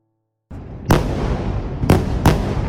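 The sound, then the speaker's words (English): Heavy shelling from tanks and artillery pieces during a bombardment of Gaza: a sudden rumbling onset, then three loud, sharp blasts over a continuous deep roar that never quite dies away. “Israel's bombardment of Gaza intensified. Thousands of Israeli troops gathered on the edge of the territory. They fired shells from tanks and artillery pieces.”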